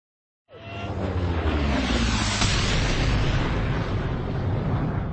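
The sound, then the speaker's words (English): An explosion aft aboard a spaceship spreads forward to the cockpit amid sparking, burning instruments. A sudden loud blast hits, then a heavy, continuous roaring rumble sustains to the end with no voices. “A powerful explosion aft worked its way forward to the cockpit, conjuring fire from the sparking instruments, stripping the ship of shields and propulsion, and leaving the Predator dead in space.”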